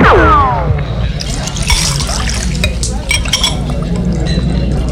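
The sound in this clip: Cachaça with flour is poured and mixed for everyone at a bar, with glasses clinking: light scattered clinks and liquid sounds, accompanied by some talk.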